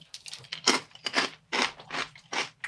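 Nuts being eaten: a series of crisp, irregular crunches and grinding bites, fairly quiet, with no talk over them.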